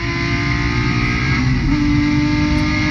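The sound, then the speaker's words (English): A race car at a club racing event drones loudly at high revs, its engine note holding steady with a brief shift in pitch about midway through. “is it the PSA club racing? Yeah. All right, well, here's a 10-year-old video of somebody doing it. So this is what it looks like?”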